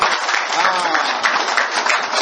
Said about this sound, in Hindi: ताली बजाओ जोर से।